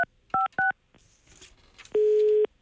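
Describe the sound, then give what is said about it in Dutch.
Telephone keypad dialing gives three short dual-pitch beeps. Brief faint noise follows, then one long, steady, low busy-signal tone. No one speaks. “Even iemand bellen die in gesprek is hoor.”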